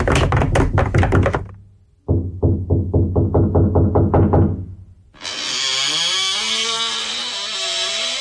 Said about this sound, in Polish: No ale zanim pukamy z całych sił, proszę bardzo.